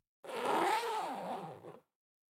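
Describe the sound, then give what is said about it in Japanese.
Zipper on the back of a frilly one-piece dress being zipped up: a single continuous rasping pull lasting about one and a half seconds, steady and fairly even, with no voices. “首の後ろのホックを止めたら、背中のファスナー締めてあげるね。”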